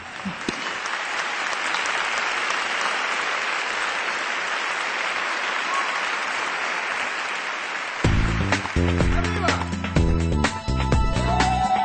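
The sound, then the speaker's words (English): An audience gives sustained applause at an awards event: a dense, even wash of clapping that holds steady for several seconds. Music then enters under the clapping near the end. “Let's give her a warm round of applause.”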